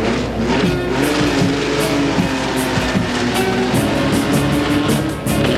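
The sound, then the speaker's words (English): Race car engine running at a drag race, a loud, continuous roaring drone that holds steady throughout, with rapid rhythmic pulses riding above it. “His engine's tuned up and it's running just fine.”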